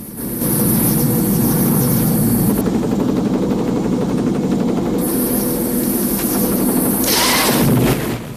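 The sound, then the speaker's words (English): Helicopter rotors still turning on a crashed gunship by a river give a loud, continuous pulsing whir over a low engine drone and a high hiss. The sound holds steady, then drops away at the very end. “Rambo lies out cold at the stricken chopper's controls. The rotors are still going.”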